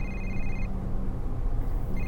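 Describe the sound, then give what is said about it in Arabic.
An electronic phone ringtone signals an incoming call: a steady high-pitched ring sounds, stops for over a second, then resumes, over a constant low rumble of background noise. “هذا محمد اتصل رد عليه”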